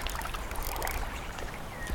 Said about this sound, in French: J'entends juste l'eau qui coule